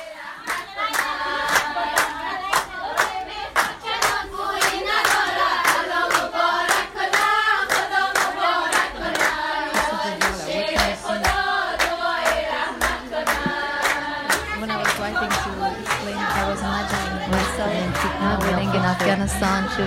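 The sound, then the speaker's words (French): Singing and steady rhythmic hand clapping fill a henna night celebration held the evening before a wedding. Many hands clap in an even, continuous beat while voices sing together. “on va entendre une ambiance et des chants de la soirée de Henna, qui est la soirée qui a lieu avant le mariage.”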